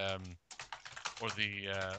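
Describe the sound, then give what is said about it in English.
Loud clacking of a computer keyboard picked up by an open microphone during a video call, with rapid keystrokes under a voice that talks throughout. “wow, someone's typing really loudly. Who's that? That was me. I forgot I was on mute.”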